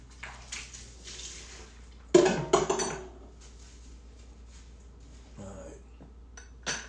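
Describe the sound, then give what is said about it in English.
A coffee container is washed out, with running water and clinking dishes and cutlery. Soft clatter builds to a loud burst of knocks and clinks in the middle, then fades to faint splashes and a last clink. “Well, you gotta wash out the thing. Sure would like some coffee. Let me wash out that container there.”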